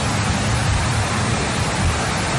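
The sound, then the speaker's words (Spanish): Heavy rain falls inside a courthouse complex building in the city, a loud, steady, unbroken rush of water that holds at the same level throughout with no separate drops or pauses. “Mire cómo está cayendo la lluvia.”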